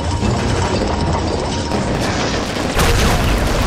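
Gunfire shooting at beer lights: a loud, dense and unbroken barrage of shots that hardly lets up, with a harder, heavier burst of fire near the end.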